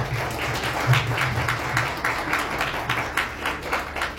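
An audience applauds at a gathering, with dense, steady clapping that holds at an even level for several seconds. A low steady hum sits beneath it.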